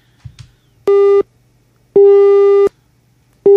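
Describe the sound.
Telephone busy tone sounds after a phone-in call disconnects: three loud, steady, mid-pitched beeps at a regular pace, the last cut off, preceded by a couple of faint clicks.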